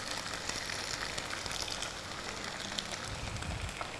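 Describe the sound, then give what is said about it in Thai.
Egg white frying in a little oil in a tilted pan gives a steady, even sizzle with fine crackles throughout. “โดยที่เราเอียงกระทะมาข้างหนึ่งแล้วก็ใส่น้ำมันไปนิดนึงนะคะด้านข้างแล้วก็นำไข่ขาวใส่ลงไป”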